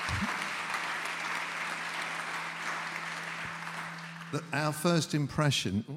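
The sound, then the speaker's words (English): Audience clapping at a welcome gathering, a steady moderate wash of applause with a low hum beneath, fading as a man begins speaking near the end. “Let's give them a clap. Come on.”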